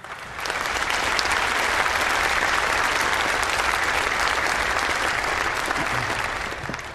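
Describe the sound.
An audience applauds to welcome a returning guest preacher. The dense, even clapping rises quickly, holds steady for several seconds and tapers slightly at the end.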